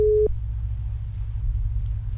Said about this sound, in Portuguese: Tá chamando. Será que ela vai atender ou tá fazendo almoço? Chamando.